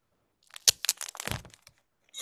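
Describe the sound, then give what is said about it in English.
Crackling and crinkling as a copy of the comic book Ultimate Universe #1 is opened, a sharp crack followed by a quick scatter of crunchy rustles and a final soft rush, all alone without talk. “Here's your ASMR of me opening my copy of Ultimate Universe one.”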